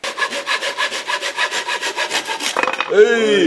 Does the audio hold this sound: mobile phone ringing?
no